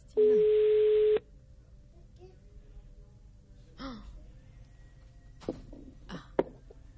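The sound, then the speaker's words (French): A single steady telephone ring tone of about one second plays while a caller's number is redialled, followed by quiet with a few faint, brief vocal sounds. “on va recomposer le numéro de Christina. S'il vous plaît, Christina, si vous m'entendez, répondez. Ah, là, déjà, ça sonne.”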